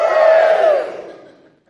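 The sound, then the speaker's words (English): Congregation cheering in a short, loud collective shout that rings out briefly at full strength and then dies away over about a second. “Shall I challenge you to cheer for giving this morning?”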